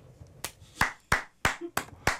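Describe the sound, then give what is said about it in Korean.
One person clapping their hands, six sharp, evenly spaced claps at a steady, moderate pace, each a crisp, bright slap with quiet gaps between. “제 자신에게 박수를 보냅니다. 제 자신에게.”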